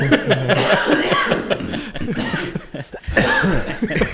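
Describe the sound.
A person coughs repeatedly in rough, throaty bursts, mixed with chuckling and lively voices talking around the coughs.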